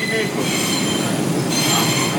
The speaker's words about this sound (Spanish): Hemos cogido el metro y nos hemos desplazado hacia, hacia la, quinta de, la quinta avenida con la 59.